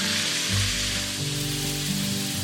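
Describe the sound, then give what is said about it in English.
Frozen corn kernels charring in a very hot, dry skillet give a steady, bright sizzling hiss that continues evenly through the whole short clip, with no talking. “I'm gonna pour all of my frozen corn into a very hot, dry skillet, and I'm gonna stir it around occasionally to make sure that all the kernels get charred evenly.”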